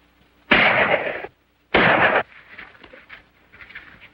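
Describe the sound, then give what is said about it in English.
Two loud pistol shots in a western gunfight along a ravine, each a sharp blast with a sustained ringing tail, followed by quieter lingering noise. “A pistol fires.”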